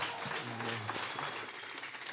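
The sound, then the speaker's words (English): A church audience stands, clapping and cheering to welcome their pastor to the stage. The applause is dense and steady throughout, with a brief raised voice cheering over it early on. “Come on, church, stand up and make some noise and let him know you're happy to see him and be here.”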